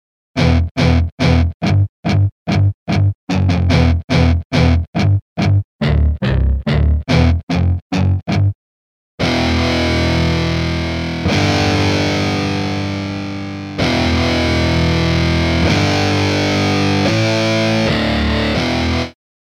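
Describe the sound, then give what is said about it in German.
Distorted American-stack amp-style preset played on a keyboard: many short, gritty staccato notes come first, then a brief silence, then long sustained distorted chords that change a few times. “Okay, der nächste Sound, American Stack Distort.”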